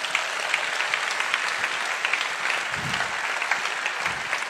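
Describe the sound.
An audience applauds during a religious service. The clapping is a dense, continuous patter at an even level throughout.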